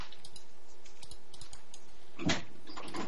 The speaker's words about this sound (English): That's the sound of me locking the door.